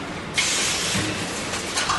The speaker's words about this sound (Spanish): ¿Ves eso de ahí? Es la soldadora. La tuerca baja y se coloca en su posición ella sola.